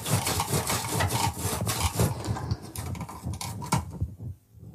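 A sharp knife is pressed hard through firm fennel, giving steady, rough rasping and crunching strokes that run continuously before thinning out and stopping near the end.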